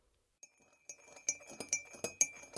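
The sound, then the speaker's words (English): A spoon stirs black coffee in a cup, making a series of light, bright clinks at uneven intervals against near silence. “I stirred the black coffee for an eternity.”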